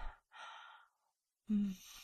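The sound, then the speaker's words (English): Heavy, nervous breathing from one person: a few loud breathy exhales separated by short silences, with the last breath turning into a voiced, sighing moan. “I know I'm breathing heavy. I'm nervous and excited, aren't you?”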